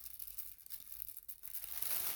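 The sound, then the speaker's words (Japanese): A plastic bag is crumpled by hand, giving a continuous, irregular crackle of crinkles and rustles that lasts about two seconds with no pauses. “もうこのビニール袋もぽいかな。”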